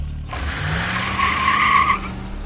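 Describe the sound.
A car pulls away with its tires skidding: a loud, sustained squeal starts abruptly, holds steady and fades near the end over a low engine drone.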